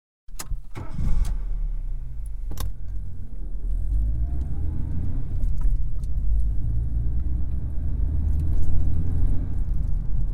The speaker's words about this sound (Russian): включил мотор и плавно тронул с места